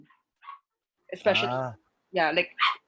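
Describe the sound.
A dog barks and whimpers: a long, whining yelp, then two short, sharp barks, with quiet gaps between them.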